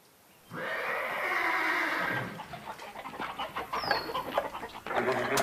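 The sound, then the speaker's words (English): Spooked horses whinny in a long, loud neigh, followed by chickens in a tizzy clucking and squawking in agitated, uneven bursts. “The chickens are all in a tizzy and the horses have been spooked.”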